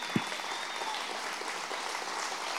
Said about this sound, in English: Can you stand to your feet and can you guys welcome Pastor Joey to preach to us today? Come on, put your hands together.